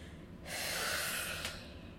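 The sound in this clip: A single deep breath drawn in, a loud, airy rush lasting about a second before it fades into quiet, with no voices.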